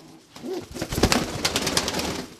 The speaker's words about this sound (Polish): już o, przylecieli z powrotem. Pan Janek od gołębi